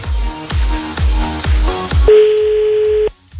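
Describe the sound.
A telephone line rings before the call is answered: after a run of regular low thumping beats, one steady ringback tone lasts about a second, then cuts off abruptly into near silence.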